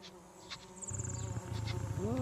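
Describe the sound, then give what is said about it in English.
Flies buzz around a capybara in a low, droning hum that grows steadier and louder partway through, with a few brief higher tones over it. “Flies buzz around capybara.”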